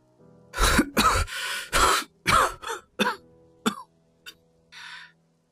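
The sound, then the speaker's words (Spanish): Coughing fit: a burst of many harsh, loud coughs in quick succession, some drawn out with throat clearing, then sparser and weaker coughs ending with a soft breath. “Empiezo a toser”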